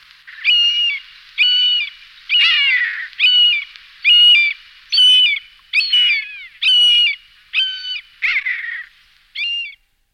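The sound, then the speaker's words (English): Buzzard, a vocal bird of prey, giving a long series of high, downslurred mewing calls, each about half a second long and separated by short, regular gaps, loud and alone. “Buzzards are madly vocal birds of prey, and their mewing calls fill valleys.”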